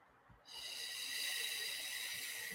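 A long, airy breath during a guided meditation, starting after a short pause and holding as a steady, soft hiss to the end, with no talk.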